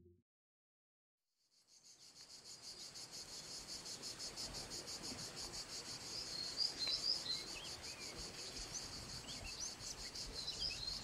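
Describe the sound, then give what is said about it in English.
Dense, steady insect chorus of crickets in a native southern European forest, a loud shrill buzzing drone that begins after a brief silence and carries on unbroken, with a few faint bird chirps scattered through it. “What you're hearing is the sound of a native forest in southern Europe.”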